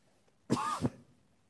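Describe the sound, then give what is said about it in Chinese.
A single harsh cough, loud and alone, made up of one short burst with a second sharper push at its end, then quiet. “我一咳嗽你们就这样”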